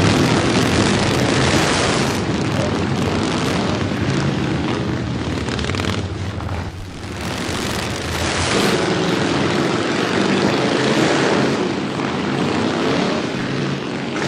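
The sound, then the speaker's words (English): Loud, continuous engine roar from motorcycles ridden by bikers, a dense rumbling wall of sound that dips briefly midway before surging back up. “Noisy ass bikers.”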